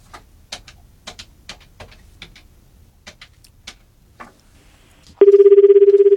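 Telephone ringing on an outgoing call: a scattering of faint light clicks gives way to a loud, steady ringback tone that warbles on one pitch until the end.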